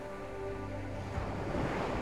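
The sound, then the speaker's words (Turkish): Warm ocean waves wash onto a crescent-shaped beach strewn with shells, a continuous rushing surf with wind, growing slightly fuller toward the end. “Zaman zaman dalgalar ta ayaklarına kadar ulaşıyor okyanusun ılık sıcaklığı ayaklarına değip geçiyormuş.”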